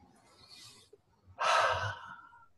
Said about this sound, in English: Take a deep breath.